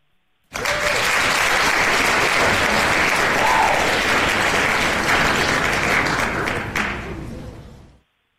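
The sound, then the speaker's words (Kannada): A quiz-show audience gives a burst of sustained applause after a correct answer. The dense, even clapping starts abruptly, holds at full strength for several seconds, then tapers off and stops. “ಚಪ್ಪಾಳೆ.”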